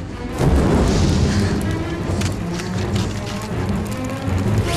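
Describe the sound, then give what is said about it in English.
Flames roar up from petrol in a metal bin lit with a match, bursting loudly near the start. A heavy, rumbling whoosh of fire then carries on steadily to the end. “She stops, pours petrol into a metal bin, and lights it with a match. Flames explode.”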